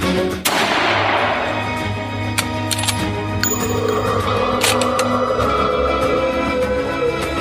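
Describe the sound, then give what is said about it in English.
A single rifle shot fired by a miner at a creature: one sharp, loud crack with a ringing decay near the start, over a sustained droning background. “One of the miners raised his rifle, took aim, and fired.”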